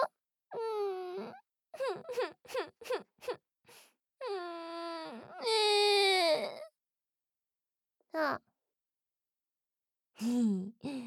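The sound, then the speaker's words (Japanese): A person fakes crying and sobbing in front of a teacher, in drawn-out wavering wails broken by a burst of short choked sobs, then a long loud wail that rises and tapers down, a sharp gasping sniff after a pause, and one last whimpering wail. “嘘泣きってバレちゃった？”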